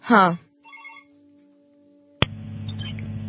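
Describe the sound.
A telephone line rings while the next caller is dialed: a brief voice at the start, then a steady, low ringing tone, cut by a sharp click as the line connects, followed by open line noise.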